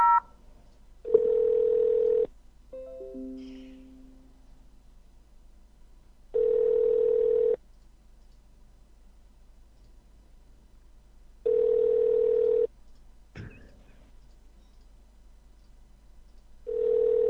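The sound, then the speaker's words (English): Ringback tone on an outgoing telephone call: three steady tone bursts about five seconds apart, with a fourth beginning at the end, plus a short run of stepped dialing tones after the first, over quiet line hiss. “I just noticed it's ringing. Yeah, wow. It's ringing. It's actually ringing.”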